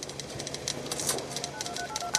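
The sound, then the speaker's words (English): Synthesized sounds of old typewriters, teletype machines and rotary phones from an art installation in a building lobby: a dense, steady clatter of faint clicks and chirpy tones that overlap continuously. “an installation called Movable Type, what you hear are synthesized sounds of ancient typewriters, teletype machines, rotary phones. Sometimes you hear the whoosh of sonar or the fracas of buzzers.”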